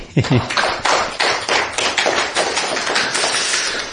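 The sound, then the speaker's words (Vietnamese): Hand clapping from an audience at a Buddhist gathering: a slow, regular series of claps at an even pace, following a brief voice at the very start. “Chư vị thấy vui không? Vui. Vỗ tay.”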